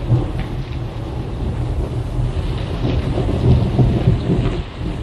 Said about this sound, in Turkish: Ne kadar şiddetli yağıyor böyle. Gökyüzünden sel boşandı sanki.